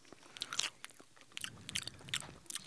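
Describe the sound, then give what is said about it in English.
Biting and chewing orange-flavored cotton candy: faint, crisp crunches and moist chewing sounds come in several short bursts, quiet and close, with no talk. “Let me take another bite. I'm going to do the orange.”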